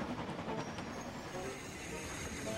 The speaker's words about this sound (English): She shifted onto the main line just as Gordon thundered by with the express.